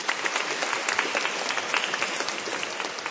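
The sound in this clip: Audience applause at a parish gathering welcoming groups from local parishes: dense, steady clapping from many hands that holds at an even level for about three seconds, with no voices over it.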